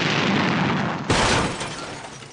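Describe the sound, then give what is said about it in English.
A bomb exploding as a sudden sharp blast that cuts into an already loud roar of noise, followed by a broad rumbling wash that slowly fades. “Did you get the bomb attached? All set, sir. 3, 2, 1.”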